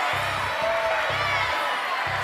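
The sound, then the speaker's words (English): A quiz-show studio audience yells the word literature together in a loud, sustained crowd roar of many overlapping voices, with a low pulsing hum repeating beneath it. “Oh, they're all yelling literature now.”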